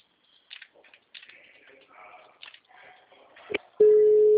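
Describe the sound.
Ringing tone on an outgoing phone call: quieter, broken sounds give way near the end to one loud, steady, mid-pitched tone that runs unbroken to the close.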